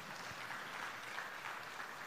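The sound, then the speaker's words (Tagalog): A church audience applauds, a faint, steady wash of many hands clapping without a break. “Okay, palakpakan natin ang Panginoon.”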